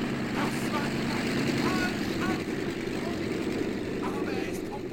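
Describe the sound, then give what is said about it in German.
Propeller airplane taking off and flying, its engine a steady, loud, droning roar that holds level throughout. “Der fliegt! Hurra! Hurra! Der fliegende Narr ist auf dem Weg nach Paris!”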